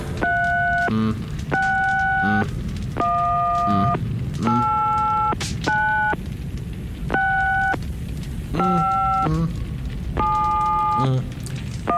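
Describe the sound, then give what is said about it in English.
An old telephone is dialled, giving a series of steady electronic tones at shifting pitches, each lasting about a second and separated by short gaps, over a constant hissing background. “So, let me just ring up the old telephone here. And let's dial the number.”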